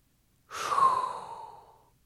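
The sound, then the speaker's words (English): A single long, airy breath drawn in as a hot breath, swelling quickly and then thinning out over about a second and a half, heard alone with no talk. “there is only one thing left to do, and that is inhale a hot breath.”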